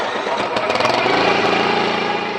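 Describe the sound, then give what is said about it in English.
A small one-cylinder Subaru Robin engine of about 7 horsepower, mounted on an instrumented kayak, starts up. A few irregular pulses give way to a loud, steady, buzzing chug like a lawnmower's. “It sounded to me like a lawnmower. Yeah. It's a little one-cylinder Subaru Robin engine. It's about 7 horsepower.”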